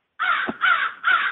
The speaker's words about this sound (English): You can hear the crows calling away in the background.